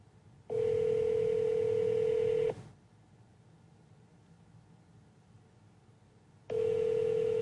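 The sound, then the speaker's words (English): A call placed from a phone produces telephone ringing tones: two long, steady, single-pitched tones, each lasting about two seconds, with a long pause of faint line noise between them. The tones are loud and clear, and no talk is heard. “I'm going to try dialing it from my phone.”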